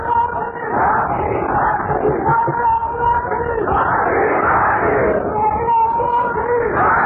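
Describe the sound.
Crowd chanting a slogan at a rally, a loud mass of voices shouting together in repeated swelling waves, with chatter and bellowing woven through.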